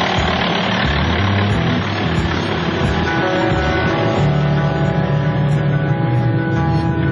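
A vehicle engine drones as a frontline medical volunteer team drives along a dangerous road toward a dam. The hum is loud, low and steady, with an unchanging tone throughout and no voices.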